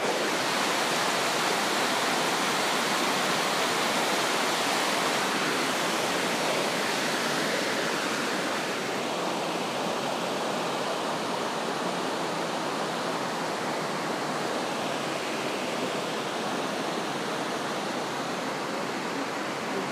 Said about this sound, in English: sound of the weir.